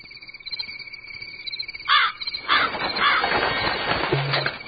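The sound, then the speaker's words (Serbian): Harsh, raspy squawks of a magpie calling, a few rough calls in quick succession after a quieter start of thin, insect-like chirring. “Ne boj se, ja sam samo svraka.”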